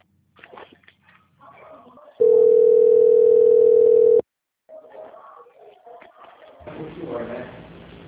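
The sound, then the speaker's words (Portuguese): A steady telephone line tone plays while a bank call-centre call is put on hold for transfer: one loud, unbroken, even-pitched hum lasting about two seconds. Voices talk before it, and a call voice follows after a short gap. “Eu vou pedir para a senhora aguardar um pouquinho na linha que eu vou transferir a senhora para o central do banco”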